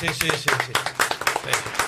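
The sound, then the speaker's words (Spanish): Quick, rhythmic hand clapping for footballer Dylan Gorosito, with sharp claps in a fairly regular pattern. People keep talking over it throughout. “Podemos aplaudir por Dylan Gorosito, lo venimos pidiendo hace un año.”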